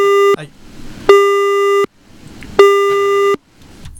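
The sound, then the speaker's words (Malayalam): Disconnected-call tone on a radio phone-in: three loud, evenly spaced electronic beeps, each under a second long and the same steady pitch, with low noise in the gaps between them. “Hello, നമ്മുടെ collar കട്ടായിപ്പോയെന്ന് തോന്നുന്നു.”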